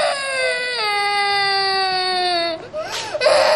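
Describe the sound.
A young child about to start primary school cries in a loud, sustained wail whose pitch slowly sinks, then breaks off into a short sobbing gasp before crying starts again.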